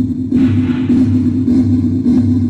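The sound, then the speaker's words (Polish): A pulsar's recorded radio signal rendered as sound: four regular, loud bursts of hissing noise about 0.6 seconds apart, pulsing over a constant low hum. “To był dźwięk pulsara, a kosmos jest pełen takiej muzyki.”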